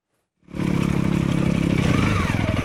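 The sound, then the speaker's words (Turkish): Off-road motorcycles climbing a steep, rocky mountain trail toward the Keldaz summit in the Amanos Mountains of Osmaniye. Engine noise bursts in from silence after about half a second, then settles into a loud, throbbing roar with a rapid pulsing beat and some rattling. “Osmaniye'de motosiklet tutkunları arazi motosikletleriyle Amanos dağlarındaki Keldaz zirvesine tırmandı.”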